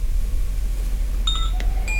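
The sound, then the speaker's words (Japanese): A small bell chime rung by the wind gives a few light, bright metallic tinkles that ring briefly over a steady background hiss. “そしてこの鈴鐘かな、この鐘は風の音なんだけれど”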